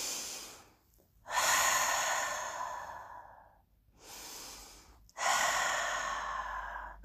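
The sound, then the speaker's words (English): Slow, deep human breathing: a few long, airy breaths, each swelling and fading, heard alone and fairly soft with brief pauses between them. “Just take a moment to breathe.”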